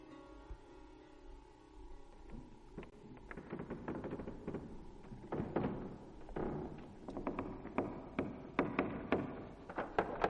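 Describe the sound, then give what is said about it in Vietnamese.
Wooden knocks and thumps of a wardrobe door being closed, a quiet series of many irregular taps over a low hum that grow louder and closer together toward the end. “Nó liếc mắt nhìn sang, nó thấy có người đang đóng cánh cửa tủ.”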